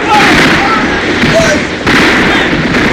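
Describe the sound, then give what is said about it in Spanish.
A gunfire volley from a radio drama battle scene, its shots blurring into a loud, dense, unbroken crackle that lasts about three seconds. “¡Fuego! ¡Disparen contra aquellos 3 hombres!”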